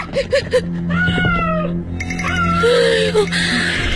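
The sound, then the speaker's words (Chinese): A feral cat gives a few drawn-out, plaintive meows, moderately loud over a low steady hum, with some shorter sounds at the start. “怕什么呀？是只野猫。”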